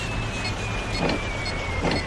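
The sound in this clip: A vehicle engine drones steadily as it drives in a tank combat video game, a continuous low rumble with a thin whine above it and a couple of brief swells.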